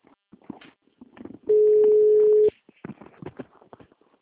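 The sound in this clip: Telephone ringing tone heard while placing a call, one steady, mid-pitched tone lasting about a second, with people talking before and after it.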